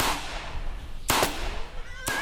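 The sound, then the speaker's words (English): Pistol gunshots fired in a bar during a Western shootout: three sharp, loud cracks, the first two in quick succession and the third about a second later, each with a brief ringing tail. “The cowgirl grabs the gun that Harry Joe had put down and turns, quickly firing at the sheriff multiple times before he can get off a single shot.”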